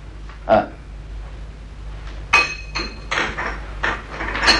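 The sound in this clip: Metal cooking pots and kadai pans being handled, with irregularly spaced clanks and clinks: one sharp knock early, then a cluster of several clattering hits toward the end.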